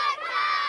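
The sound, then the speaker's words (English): Children shout and play while jumping into the San Joaquin River at a river camp in the rural west side town of Faribault. It is a brief, steady burst of overlapping young voices. “That's the sound of kids playing and jumping into the San Joaquin River in the rural west side town of Faribault.”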